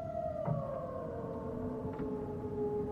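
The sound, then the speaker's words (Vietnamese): Mournful roar of a giant dragon in the sky, rendered as a long, sustained wailing tone. It glides slowly downward in pitch, siren-like and fairly quiet throughout. “Hư ảnh Dao Long vừa xuất hiện đã bay vụt lên không trung, ngửa cổ gầm lên những tiếng bi thống trên bầu trời của dị giới.”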